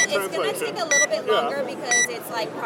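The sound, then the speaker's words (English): An HD Solux Digital XLF HD reading device gives two short, high electronic beeps while it processes a document, heard under people talking. “HD Solux Digital XLF HD. It beeps so you know what it's doing. Yes. And then you know that it's taking action.”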